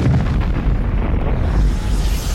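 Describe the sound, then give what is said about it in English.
Planet Krypton explodes in a Superman film, a loud, sustained roar of deep rumble and crackling noise that holds steady for the whole moment without a break. “as his little spaceship goes off into the galaxy, we see Krypton explode.”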